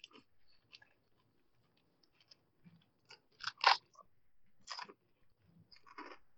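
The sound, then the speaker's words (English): Crunching and chewing on a pancetta and garlic flavoured snack, with a few crisp, bright bites bunched in the second half, the loudest near the middle, separated by quieter chewing and pauses. No one talks. “I'm moving on to pancetta and garlic. These smell like Play-Doh. Am I wrong? They taste like butt.”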